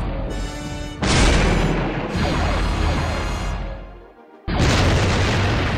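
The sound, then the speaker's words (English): Heavy explosions from an orbital bombardment pound ground positions, a series of deep, loud booms with sharp new blasts breaking in over rumbling noise and one brief lull before the last one. “Bombardment's over.”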